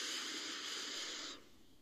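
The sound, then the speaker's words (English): Breath drawn in through the nose during a guided breathing exercise: one long, steady airy hiss lasting over a second that cuts off abruptly into near silence. “let's take three breaths together to really root this in, breathing in through the nose”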